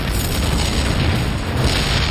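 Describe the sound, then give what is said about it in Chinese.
Satchel charges explode on T-34 tanks at night as a loud, continuous low roar and rumble. The sound holds steady throughout, with no distinct separate blasts. “爆炸声响彻夜空”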